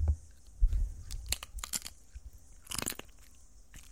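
Wet, crunchy chewing and biting close to the mouth in amateur ASMR, a long run of many irregular crackly bites and smacks at a fairly quiet level with no talk.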